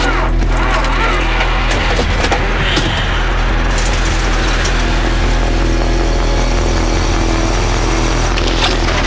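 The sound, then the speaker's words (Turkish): A car engine rumbles as the car starts driving downhill, a loud, steady mid-pitched hum with small surges, running unbroken across the whole stretch. “Yokuş aşağı sürmeye başla.”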